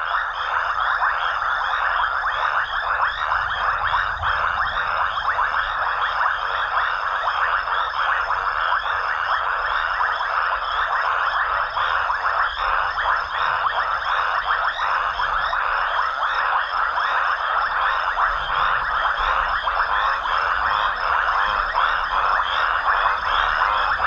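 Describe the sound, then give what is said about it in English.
A dense night chorus of raucous toads, Bufo rangeri, calling in Africa. The trilling mass of calls runs steady and loud for the whole stretch, with a fine pulsing texture and no breaks or voices. “The raucous toads, Bufo Rangiri, join the night chorus as all of the creatures seek romance in the African night.”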